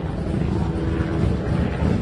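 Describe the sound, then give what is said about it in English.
News helicopters hovering over a home in Cleveland produce a steady, loud, low rumbling drone with a dense, churning texture throughout. “News helicopters are now hovering over the home of Gina DeJesus”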